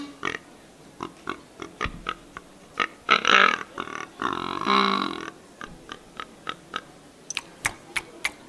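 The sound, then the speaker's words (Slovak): Wild boar grunts imitated on a hunting lure call: a long string of many short, clipped grunting pulses, broken in the middle by two longer, louder, rasping grunts. No one talks over it. “Takže dá sa diviak aj pomocou vábničky prilákať.”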